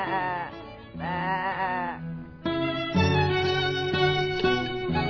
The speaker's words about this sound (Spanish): La oveja.